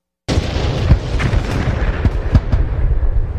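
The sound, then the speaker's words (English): Artillery guns firing in a World War I recording: a dense, continuous low rumble of gunfire with several sharper, louder booms breaking through it. “Listen to the guns. Let's go ahead and play the audio clip.”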